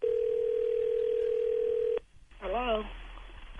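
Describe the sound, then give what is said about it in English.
A telephone being dialed to call someone: a steady, buzzing dial tone holds for two seconds, cuts off, then brief warbling electronic tones follow. “Okay, here, let's call your mama.”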